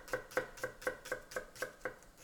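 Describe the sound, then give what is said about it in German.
A knife finely dices halved, peeled onions on a board, giving a steady, evenly spaced run of many quick, crisp taps. The chopping is faint and has no talk over it. “Dann tun wir die Zwiebeln halbieren und in feine Würfel schneiden.”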